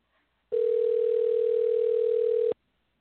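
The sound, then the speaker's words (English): A telephone dial tone hums steadily for about two seconds and then cuts off abruptly. A short click follows. “I am going to dial a number right now, and a voice will hopefully answer.”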